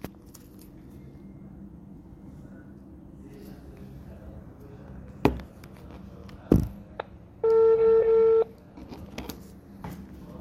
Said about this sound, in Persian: پس الان باهاش تماس میگیریم تا مصاحبه رو برقرار کنیم.